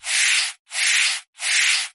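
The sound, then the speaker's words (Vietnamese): A broom sweeping a floor makes three even, bright swishing strokes of similar length, each separated by a brief silence, with no voices. “Yến Hạc Thanh lấy cây chổi và cây hốt rác, tỉ mỉ quét sạch nhà cửa”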